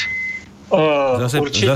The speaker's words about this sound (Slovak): Zase pípaš. Nie, to som nebol ja. To bol nejaký, jak vysoké zdvižné vozy, keď cúva, alebo niečo také.